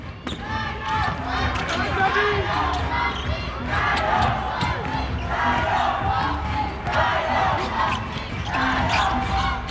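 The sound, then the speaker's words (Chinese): A basketball is dribbled on the court during overtime of a game, with many quick bounces under constant crowd noise and commentators talking throughout. “这个运球有点不太小心”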